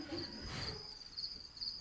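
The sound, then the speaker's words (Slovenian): Crickets chirp in a faint, steady, high-pitched trill that continues throughout with no voices. “Čričke pa šluš, na?”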